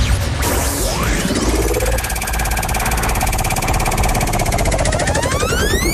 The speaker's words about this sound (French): votre première mission, c'est de faire un top pour lancer la roue. Allez, top.